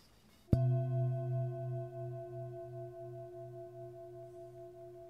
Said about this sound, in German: mal die Klangschale auf deinen rechten Fuß, auf die Fußsohle.